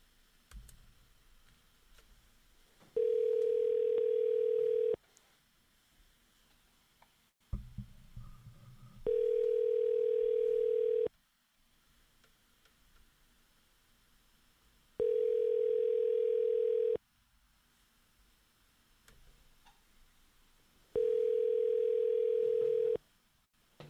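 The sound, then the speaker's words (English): A telephone line tone sounds while a number is being called. Four steady mid-pitched beeps, each about two seconds long, come at even intervals with roughly four seconds of near silence between them and a few faint clicks. “Let's call this number.”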